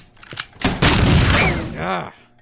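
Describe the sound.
Gunshots in an audio drama: a single sharp pop, then a loud dense burst of rapid gunfire lasting about a second, followed by a brief voice.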